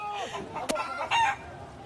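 A chicken clucks and calls in a brief, fairly faint burst of squawking notes, with one short, sharp click partway through.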